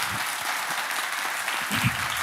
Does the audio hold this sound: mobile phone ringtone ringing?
no